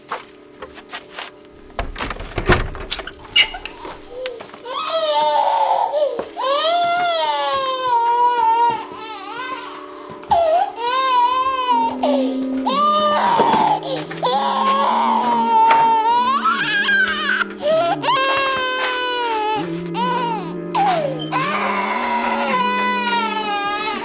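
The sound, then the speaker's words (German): A baby cries in long, wavering wails with short breaks between them, the pitch warbling up and down as the crying carries on for the whole stretch. “Ich habe keine Milch mehr. Sie hat keine Milch mehr. Und deshalb weint es.”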